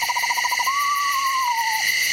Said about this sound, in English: It's a pair of screech owls, on the other hand, calling back and forth to each other, which produce this hypnotic, undulating trill.